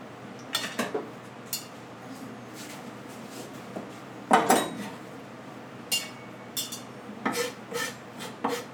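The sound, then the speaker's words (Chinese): Chopped cilantro being moved onto a plate in a kitchen, heard as several light clinks, scrapes and rasping brushes of utensil against dishware, scattered irregularly, with a louder cluster near the middle and more toward the end. “我需要一个盘子，现在香菜切好，我们先把它装起来。”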